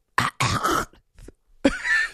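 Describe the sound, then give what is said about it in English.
A person deliberately clears their throat in a few short, rough, gravelly bursts separated by brief pauses, the last one longer and raspier. “People just have to clear their throats, right? They do. Let me clear my throat.”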